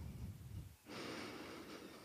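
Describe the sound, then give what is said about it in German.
A deep inhale through the nose during a guided meditation breathing exercise: a steady, airy breath that starts abruptly after a quiet moment and holds for over a second. “Und dann atme einmal tief durch die Nase ein”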